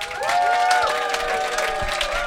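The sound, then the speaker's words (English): Audience applause for a panel: dense, loud clapping mixed with crowd cheering, sustained at an even level throughout. “Right, let's have a round of applause for our brilliant panel.”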